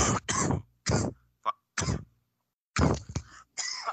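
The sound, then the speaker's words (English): A person coughs in a series of short, harsh bursts separated by pauses, each fairly loud and rough, with a softer cough near the middle and no talk between them. “I have a cough there.”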